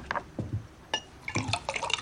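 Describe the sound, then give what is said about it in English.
Drinks being poured into glasses, heard as a few short, quiet splashing pours separated by brief pauses, with no talking. “pours drinks and hands her one”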